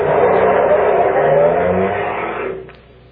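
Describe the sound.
A car engine revs loudly and evenly as the vehicle drives off, holding a steady roar before dropping away quickly near the end.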